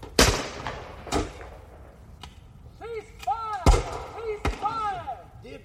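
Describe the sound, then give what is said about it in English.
Gunshots ring out at a shooting range: several sharp, loud cracks at irregular intervals, with quieter knocks and some tonal chirping sounds between the later shots. “That is some mighty fine shooting there.”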